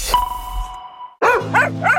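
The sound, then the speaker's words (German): A dog barks three times in quick succession, loud and sharp, right after a brief ringing chime fades away. “Wenn Bello und Waldi mit Luna baden gehen, dann ist wieder Hundebadetag im Kreuzer.”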